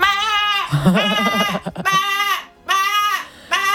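Lambs and ewes bleat loudly in a run of several wavering, cry-like calls at a new lamb breeder's flock, the calls separated by short pauses and sounding much like crying babies.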